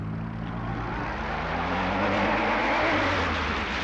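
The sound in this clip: Car engine pulling away as the driver lets out the clutch and presses the accelerator, a loud, steady low drone with rumbling harmonics that swells slightly in strength partway through.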